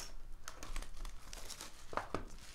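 Crinkling foil as a pack of trading cards is ripped open, faint and steady, with two sharper tearing bursts near the end.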